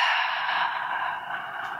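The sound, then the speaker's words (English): A long exhale through the mouth during a guided breathing exercise, a steady breathy rush of air that holds fairly even and eases off slightly toward the end. “Hover at the top. And then exhale through the mouth.”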